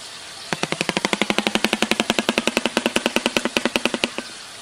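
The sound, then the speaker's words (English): A shoebill stork clatters its bill in a played video: many sharp, evenly spaced clacks in a fast machine-gun rhythm lasting about four seconds before stopping. “Does that look like something you'd see on a Jurassic Park ride? Yeah. Yes. That's real. No, it's not. I'm not joking. What There's is no that? Way. Prove it. Renee, you have pictures. It's called the Shoebill Stork”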